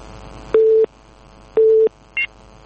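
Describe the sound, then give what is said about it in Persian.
A telephone busy signal follows a cut-off listener call to a phone-in program. Two short, even beeps at one steady pitch are separated by a gap, then a brief, higher-pitched chirp follows. “آقای عبدالله از زابل تماس گرفتن قطع شد”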